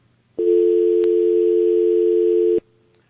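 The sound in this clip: A steady telephone dial tone sounds after a dropped call, one continuous loud electronic tone lasting about two seconds, heard alone with no voices.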